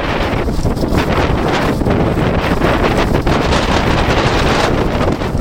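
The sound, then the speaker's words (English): Strong cold wind blasts between two buildings, a loud, continuous roar that buffets the microphone with rough rumbling and hissing gusts throughout and no pause or voices. “and it feels as bad as it sounds. The wind is almost knocking me down.”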